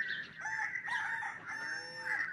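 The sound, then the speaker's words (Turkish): A rooster crows in a drawn-out, strained call with a bright, reedy tone that fills the whole couple of seconds, faint and with no other sound. “Voy, qiqir horozan, qiqir. Voy, qiqir horozan, sesin ödöneyin.”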